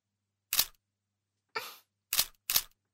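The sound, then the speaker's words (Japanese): A camera shutter clicks four times as photos are taken: crisp, quiet snaps at uneven intervals, the second one softer and more drawn out, with silence in between. “写真に撮らなくていいんですか？”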